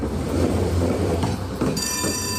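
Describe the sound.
A tram runs along its rails on the route from Chorzów's market square to the Świętochłowice-Skałka stop, with a loud steady rumble and rail clatter and a high whine that rises in near the end.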